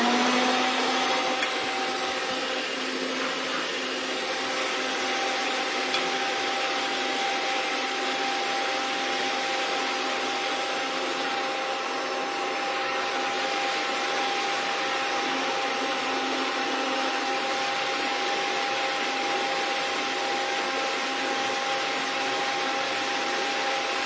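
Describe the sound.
An electric mixer beats powdered sugar with a loud, steady, unbroken motor whir that holds the same level for the whole stretch, with no talk over it.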